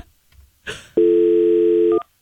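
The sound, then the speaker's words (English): A phone call to the speaker's wife rings out: one steady electronic ringback tone lasting about a second, preceded by a brief burst of noise. “Calling my wife, Vanessa. See if she'll answer the phone.”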